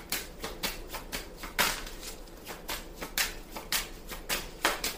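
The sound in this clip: Cards are shuffled and drawn for a card reading. Many quick, faint papery flicks and snaps come in an uneven rhythm, with no talk.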